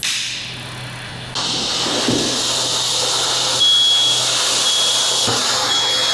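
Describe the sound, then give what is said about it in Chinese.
A smoke alarm falsely triggered by insecticide fumigant smoke in a closed room of about 20 square metres gives a thin, steady high-pitched tone over a continuous broad hiss. “在中控室里面看到了它的烟感发生了报警现象，这也说明我们的杀虫烟剂会对我们的烟感产生一个误报的现象。”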